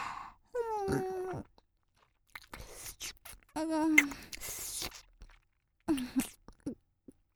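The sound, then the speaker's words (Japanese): Wet, sticky chewing of a fried egg seasoned with mayonnaise and milk, several bursts of mouth noise with short pauses between them, moderately loud and with no talk. “口の中で卵とマヨミルクをミックスしてぐちぐちにしていっぱい舌で味わってから”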